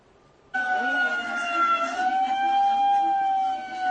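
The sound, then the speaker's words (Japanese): A warning siren sounds at a gate to halt traffic on a road while elephants pass, much like a police car siren. It cuts in abruptly and holds a loud, steady wailing tone with slight pitch drift throughout. “サイレンです。 これパトカーみたいに思います 。そうですそうです。まあこれ何の合図かというと、まあ今からゾウ通るで”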